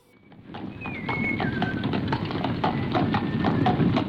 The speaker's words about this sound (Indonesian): Kita pulang naik delman aja yuk